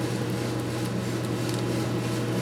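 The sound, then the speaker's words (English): Coffee roaster running mid-roast, giving off a constant low mechanical hum and whir with a steady airy hiss on top, unchanging in level for the whole stretch. “So this roast is about 15 minutes long total. Seems to be a good length with this kind of scale to this roaster.”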